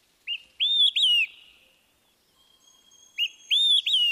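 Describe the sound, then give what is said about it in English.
Olive-sided flycatcher song: two loud, clear three-note phrases with a pause between, each a short opening whistle followed by two longer, slurred high notes that rise and then fall. No other sounds or voices. “The olive-sided flycatcher.”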